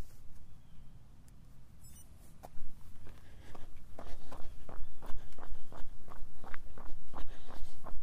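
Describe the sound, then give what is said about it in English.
Running footsteps on a slow three-mile shakeout run starting from a hilltop, quiet at first, then a steady, rhythmic patter of footfalls that grows louder and keeps an even pace. “We are at the top of the hill. Time for a little 3 mile shakeout run. Let's get going.”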